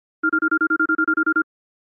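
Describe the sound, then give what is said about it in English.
Phone ringtone for an incoming evening call: a rapid electronic trill of twelve short, even beeps at a steady pitch, clean and alone, then silence. “And later that evening, I get a surprise when Mickey actually calls me.”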